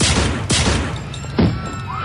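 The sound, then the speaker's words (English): Gunfire cracks out in a tense drama scene as two sharp bangs, the second louder than the first, over a dense rumbling background with no talk. “you just shot her in cold blood”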